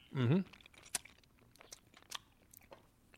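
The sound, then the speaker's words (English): Biting and crunching pickle-flavored hard candy: a short hummed voice sound opens, then a few sharp, brittle cracks and softer chewing crunches are spread across the next few seconds. “All right, well, here it is. Hard candy. Ready? Pickle candy.”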